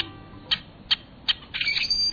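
A rusty blackbird calls with three short, sharp, high-pitched notes evenly spaced about a half-second apart, then a longer creaky, squeaking phrase. The notes are fairly faint and heard alone.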